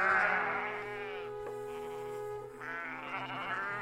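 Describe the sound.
Ewes bleating on a farm in Taihape: two drawn-out, wavering bleats, one at the start and one near the end, over a faint steady hum.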